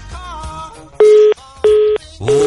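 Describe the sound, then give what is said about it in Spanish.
Telephone tones mark a dropped call on a line troubled by heavy rains: a steady, mid-pitched beep repeats in even pulses, three in all, after a brief stretch of muffled voice. “Es que se le cortó la llamada.”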